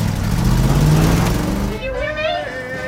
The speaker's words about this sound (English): Outside, the truck charges.